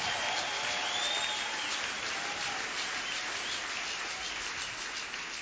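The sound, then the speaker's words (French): A church audience applauds, a thick, continuous rush of clapping like heavy rain, steady in loudness from start to finish. “Est-ce que tu peux acclamer ce Dieu-là?”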